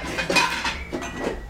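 Dishes and cutlery clinking in a kitchen sink piled high with dishes, in a house in a poor São Paulo neighborhood under drought water rationing. A steady run of light clinks and clatter with no voices.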